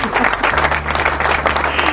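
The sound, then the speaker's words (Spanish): Applause for a guest on a radio program, loud and steady clapping sustained from start to finish with an even, dense texture. “¿Hay aplausos para Perla? Sí.”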